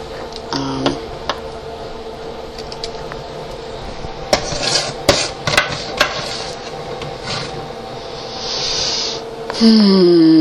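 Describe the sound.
Bacon strips going into a second frying pan in a home kitchen, heard as clattering metal, scraping and clinking utensils, with the noise growing louder and fuller near the end.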